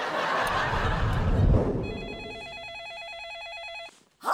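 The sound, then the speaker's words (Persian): A telephone rings with a rapid, warbling electronic trill. It enters after a burst of louder noise, holds steadily for about two seconds, then cuts off abruptly. “میدونم مامان تلفنه، منم میشنوم.”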